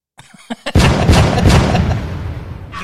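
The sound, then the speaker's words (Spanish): Gunshot sound effects: a few faint clicks lead into a loud booming blast with a long, rumbling decay that fades slowly. “¿No hay que sacar un arma tú? A ver, espérate. Pium, pium. No, pues están los efectos.”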